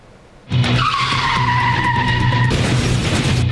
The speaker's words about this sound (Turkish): Kontrolden çıkan bir otomobil önce refüje çarpıyor. Yoldan geçen bir aracın da üzerinden geçiyor savrulduktan sonra.